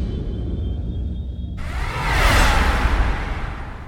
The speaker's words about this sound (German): Fahr die Antriebe hoch, ja? Schon dabei.